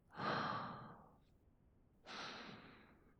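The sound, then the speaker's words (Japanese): Two long, faint breaths taken at close quarters while someone deeply inhales another person's scent. Each is a soft, airy rush that swells and fades, separated by a short quiet gap. “いや、もう深呼吸だ。”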